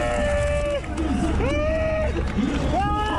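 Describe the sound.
The Italian winner of the rain- and mud-soaked 2021 Paris-Roubaix cycling race lets out a cry of joy mixed with tears, several drawn-out voiced wails with sliding pitch over a noisy background.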